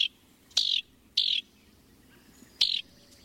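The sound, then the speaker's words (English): House wren calls: a few short, high, slightly buzzy notes ring out one at a time with clear pauses between them, above a faint low background hum. “The chatty wrens nest in cavities, including nest boxes.”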